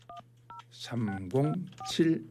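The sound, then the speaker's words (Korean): Telephone keypad tones sound as someone dials a listener who answered a quiz correctly. A few short, clipped dual-tone beeps come first, then more under a man's talking. “자, 어떤 방학생들을 하나님께서 만나게 해주실지 예 한번 전화를 한번 걸어보겠습니다.”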